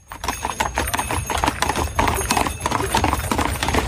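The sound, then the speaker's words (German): Hooves clip-clop steadily as a horse pulls a carriage through a snowy forest, a dense, even run of many sharp strikes that continues without a break. “Aber wir fahren ja sowieso nur mit der Kutsche.”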